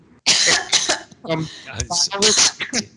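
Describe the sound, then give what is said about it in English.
Throat clearing: a few rough, harsh bursts that sound like coughing, followed by voice-like sounds. “sorry. I just had something in my throat there.”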